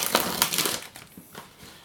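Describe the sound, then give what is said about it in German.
Fresh basil leaves are torn roughly by hand, giving a few quick crisp rips and crinkles that fade into quieter rustling. “Also die macht man die Blätter so grob, zerreißt man die so ein bisschen.”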